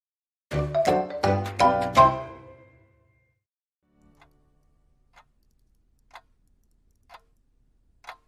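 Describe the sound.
Clock ticking that opens with a quick run of about five bright, ringing chime-like notes, then settles into sparse, faint, sharp ticks spaced roughly a second apart.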